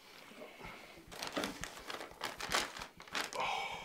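An old paper card is handled, giving soft, continuous crinkling and rustling with sharper crackles that come and go, fairly quiet throughout.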